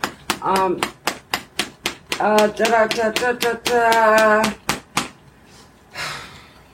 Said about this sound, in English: you're certainly welcome to join in if you're not a tapper per se. But all tappers are more than welcome.